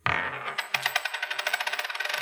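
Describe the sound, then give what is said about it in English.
A flipped coin lands with an initial clatter, then gives a long run of rapid, bright metallic rings as it spins and settles. “So let me flip a coin now.”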